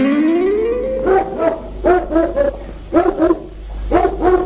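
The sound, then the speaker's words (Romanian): A dog at a mountain chalet howls with a rising pitch, then breaks into loud barks in several quick bursts. “potolește-ți câinele”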